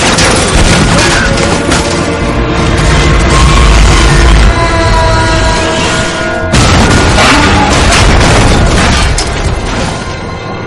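A snowplow crashes through a barrier of police patrol cars and sends them flying during a film chase scene. Loud, dense crashing and booming runs throughout, with a sudden break near the middle before a second heavy burst.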